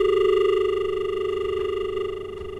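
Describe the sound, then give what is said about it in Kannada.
A steady telephone line tone sounds during a call that fails to connect, as a farm radio phone-in tries to reach a caller. It is one continuous mid-pitched hum with bright overtones, unbroken and alone, fading slightly toward the end. “ದೂರವಾಣಿ ಸಂಪರ್ಕ ಸಾಧ್ಯವಾಗ್ತಾ ಇಲ್ಲ”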